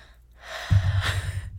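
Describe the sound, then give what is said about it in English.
A single long, deep breath is drawn in and slowly let out, a soft breathy rush with no voice, steady and moderately loud for over a second over a low hum. “just take a deep breath like, ready, let's do it right now”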